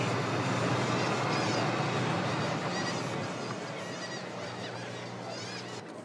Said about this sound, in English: A lot of seagulls.